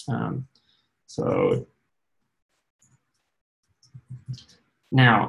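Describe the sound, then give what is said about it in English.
A short burst of a few faint keystroke clicks on a computer keyboard while a web shortcode is typed in, falling in a pause between stretches of a person talking. “I'm just going to type it in since I know it.”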